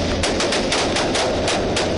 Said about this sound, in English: So when we first knocked on the door of the house, the shooting started. A fierce gun battle erupted.